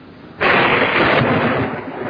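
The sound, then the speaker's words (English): A heavy thunderclap in a storm with lightning breaks out suddenly as a loud, broad rumbling burst. It stays full for over a second, then slowly eases off. No voices are heard. “What a dreadful storm. What awful lightning.”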